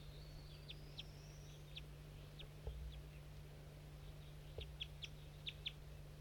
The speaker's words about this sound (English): Start recording eight birds in the cotton, these are the wild ones.